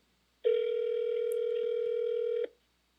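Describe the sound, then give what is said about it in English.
A single steady ringback tone from a phone call that rings through to voicemail, lasting about two seconds, clear and alone against near silence. “You have reached like the voicemail.”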